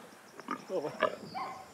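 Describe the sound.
A piglet grunts near a nervous mother sow, making a few short, throaty grunts and squeaky snorts in quick succession at a fairly faint level.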